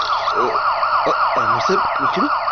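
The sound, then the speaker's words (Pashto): A police car siren wails continuously, its tone rising and falling in a fast, repeating sweep that stays loud and steady from start to finish. “دا خو پولیس دی.”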